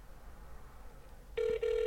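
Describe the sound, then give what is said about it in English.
A telephone call rings out after a quiet stretch of faint background hiss. The tone is bright and steady, breaks off briefly, then continues. “once it rings, it's calling currently, apparently.”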